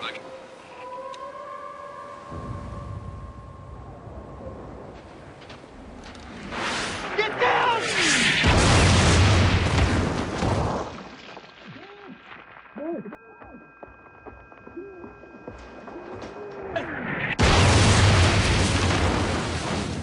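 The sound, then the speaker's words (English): Artillery fired from an island bombards a main beach, with two long, loud roaring blast sequences separated by a quieter stretch where voices and a thin sustained tone are heard. “Main beach being bombarded from Hydra Island.”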